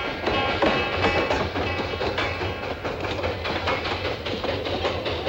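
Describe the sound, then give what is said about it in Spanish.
A steam locomotive runs on railway tracks as it reaches the end of the line. It makes a steady loud mechanical rumble with repeated clickety-clack beats throughout, and there are no voices. “La locomotora con los dos hombres llega a la linde de Nueva España, donde terminan los raíles.”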